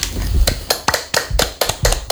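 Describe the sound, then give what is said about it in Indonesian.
Scattered applause for a presenter after a talk on a traditional dance: a handful of sharp, separate hand claps at an uneven rhythm over a low background murmur, fairly quiet and without speech. “Oke, tepuk tangan dulu untuk Kak Deva.”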